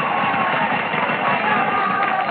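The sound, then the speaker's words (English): Crowd cheering for the Notre Dame Fighting Irish, a continuous, muffled roar of many voices that holds steady throughout. “Those cheers aren't for me. Those cheers are for the Notre Dame spirit.”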